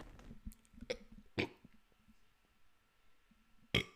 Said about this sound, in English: Excuse me. I started to like have this really, really bad burp.